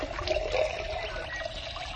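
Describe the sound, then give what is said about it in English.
Water is poured into a vessel with a faint, steady trickling that runs on without pause. “Here, put the water into a vessel that is sweet and good.”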